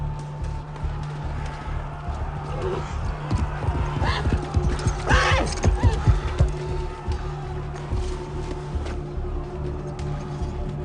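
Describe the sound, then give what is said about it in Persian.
Horse hooves clop in a short scattered run amid a battle, sitting over a steady low rumble that continues throughout. “اسب منو بهش بدید! اون جنگجوی بزرگیه و شایسته نیست پیاده به جنگه.”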